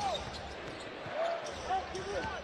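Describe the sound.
A basketball being dribbled by Trae Young in an NBA game against Toronto, a few bounces heard under a commentator's ongoing talk.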